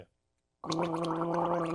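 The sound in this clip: Someone gargles pickle juice during a blindfolded taste challenge: after a short silence, a sustained wet, bubbling gurgle runs unbroken and fairly loud to the end.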